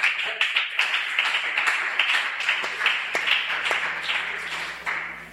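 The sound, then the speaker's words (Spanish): An audience applauds to welcome a newcomer being introduced by name, many hands clapping in a dense, uneven patter that holds steady and then tapers slightly at the end. “Que levante la mano y le vamos a aplaudir dándole la bienvenida a Dana Sofía.”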